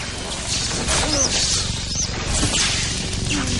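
A lightsaber clash in a forest duel from Star Wars: The Force Awakens, with Kylo Ren pressing his blade against Finn's: a dense, sizzling electric drone with a few brief swishes and crackling impacts.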